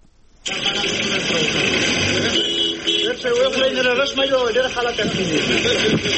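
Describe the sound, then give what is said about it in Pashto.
Engines of cargo trucks hauling Pakistani goods through the Ghulam Khan crossing toward Tajikistan, a steady mid-pitched rumble that cuts in abruptly and holds throughout, with speech running over it. “دا د هغو ټرکونو آواز دی چې د فروری په 12 د پاکستان مالونه د غلام خان پر بندر د افغانستان له لارې تاجکستان ته وړل.”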